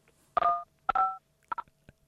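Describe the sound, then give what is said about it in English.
Telephone dialing tones on a phone line: two longer keypad beeps, then several short, quick blips, faint against a quiet background. “I think they're trying to dial.”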